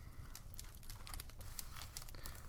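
Soft paper crinkling as a business card is handled, a quiet, irregular scatter of small rustles and crackles running throughout.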